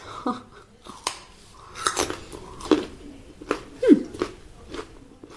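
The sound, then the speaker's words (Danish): A raw carrot is bitten and chewed. Many sharp, crunchy snaps come in an irregular rhythm, with softer chewing between them and no talking. “Det gør overhovedet ikke ondt. Altså som en slet, slet ikke ondt i min kæbe og spise en gulerod.”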